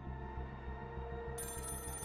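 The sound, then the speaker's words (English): A telephone bell rings in a steady, rapidly pulsing trill that repeats evenly throughout, faint and heard alone. “Grabbing the phone and dialing 999, at 9:08 a.m, PC Sidney Gillingham of Scotland Yard received his call.”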